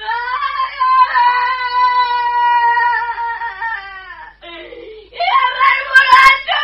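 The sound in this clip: A child crying in long, high sobbing wails, one sustained cry drifting slightly lower before a short break, then a louder, harsher wail.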